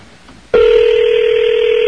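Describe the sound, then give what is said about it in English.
Telephone tone as a call is placed back to a caller. After a quiet lead-in, a loud, steady electronic tone starts abruptly and holds unbroken to the end. “It's been a long time since we've called someone back.”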